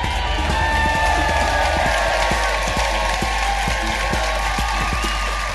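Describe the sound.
A theatre crowd at the City Varieties in Leeds applauds and cheers the comedian host onto the stage, with continuous clapping and raised whoops over a steady low hum.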